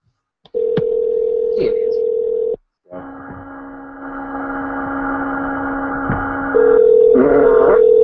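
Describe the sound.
A telephone call is placed and rings through to voicemail. A steady dial tone holds for about two seconds, then after a short gap sustained ringing tones follow, and a voice briefly joins at the end.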